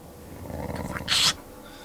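Dogs growling close by near a house, a low rumbling growl that builds into one short, harsh, louder snarl before fading.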